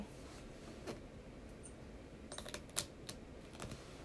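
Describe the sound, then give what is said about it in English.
Faint scattered clicks and crinkly taps come from a roll of tape being handled, a few sharp transients standing out over a low steady hum with no voices. “Me messing with tape.”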